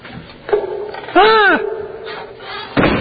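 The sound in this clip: A door is opened as someone walks out, with a harmonic creaking squeal in the middle and a dull thud near the end, over a low steady hum.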